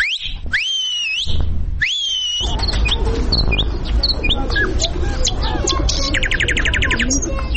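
Whistling at a zoo in Kabul: a few loud, sweeping whistles at the start, then dense chirps, trills and short tweets over steady background noise.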